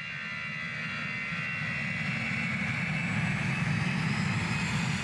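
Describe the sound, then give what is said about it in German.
An airplane in flight on a cold winter afternoon trip to Berlin gives a steady, loud engine roar with a broad, rushing drone and a low rumble, holding an even level throughout with no voices. “An einem kalten Winternachmittag fliegt Kretschmann nach Berlin.”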